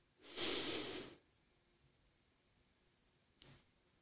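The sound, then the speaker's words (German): A slow, calm inhalation through the nose during a guided breathing exercise, a soft airy rush lasting about a second, then quiet before a brief faint second sniff. “Atme jetzt ganz ruhig 4 Sekunden lang ein durch die Nase.”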